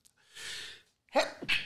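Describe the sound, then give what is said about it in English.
A sneeze begins with a long, drawn-in breath and a brief pause. Two sharp, explosive bursts follow in quick succession, louder than the inhale. “sneezing in the middle of a story.”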